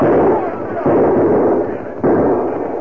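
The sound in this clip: Gunshots from men firing at riders ring out as three sharp, loud reports, each with a rumbling decay before the next.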